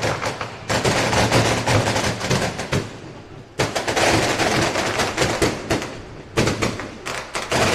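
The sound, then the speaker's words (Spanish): Firecrackers explode at a street welcome celebration in loud, dense, rapid-fire volleys of cracks and bangs, the barrage continuing throughout with brief lulls before fresh bursts. “El arsenal de bomba allí para la bienvenida de Recoleta de San Lorenzo.”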